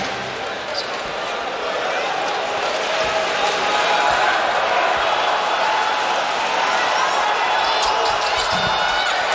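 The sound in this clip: Basketball bouncing as a player prepares a free throw at a basketball game, a few dull thuds beneath a constant wash of crowd noise, with a voice talking over it.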